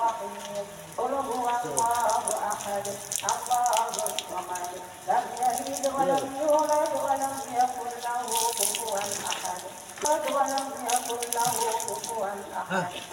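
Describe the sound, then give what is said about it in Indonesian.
Running water rinsing hair after a hair-coloring treatment: a continuous splashing, trickling flow of moderate loudness that varies slightly as it pours. “Setelah menunggu 15 menit, kita langsung bilas ya.”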